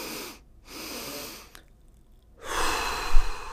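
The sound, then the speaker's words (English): Calming breathing exercise: two breathy inhales, the second longer, then a pause and one extended, louder exhale, all soft rushing air with no talking. “so that's that double inhale followed by extended exhale.”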